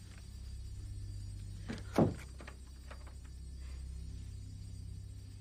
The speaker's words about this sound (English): tries the door but it's locked.